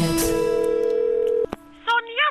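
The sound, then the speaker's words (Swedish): A telephone call is being dialled: a steady, even dial tone holds for over a second, cuts off with a sharp click, and then a voice begins speaking. “Jag ska ringa Sonja.”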